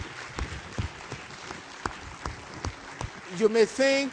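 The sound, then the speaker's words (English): Scattered clapping from a church audience giving a clap offering, a thin spread of individual claps at moderate level, then a voice begins talking near the end. “Can we give him a clap offering?”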